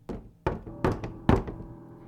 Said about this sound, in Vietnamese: tiếng gõ cửa lại vang lên ở ngay sát căn phòng bên cạnh